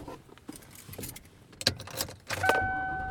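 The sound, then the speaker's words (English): Quiet car interior noise while driving home, with keys jangling and a few small clicks, then a steady electronic tone sounding through the final second. “I am driving home.”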